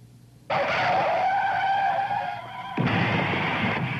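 Car tires skidding with a loud, sustained squeal that starts abruptly. It eases slightly, then a second harsh skid follows, with no talk.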